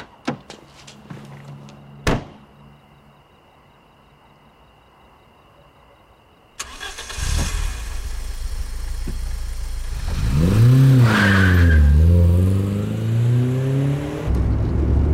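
Car door shutting with a sharp slam after a few light clicks, then a pause before the engine fires up, settles and revs as the car drives off, its pitch climbing and dropping through loud acceleration.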